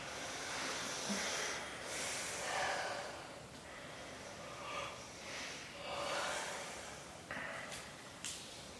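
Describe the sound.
Slow, faint breathing during a yoga relaxation, several soft inhales and exhales rising and falling as gentle airy hisses in near quiet.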